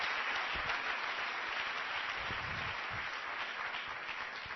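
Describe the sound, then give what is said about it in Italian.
Audience applause welcoming a guest speaker at an educational lecture in Mondovì, a faint, even wash of many hands clapping that continues without a break or voices. “quindi se gli facciamo subito un applauso per augurargli il benvenuto.”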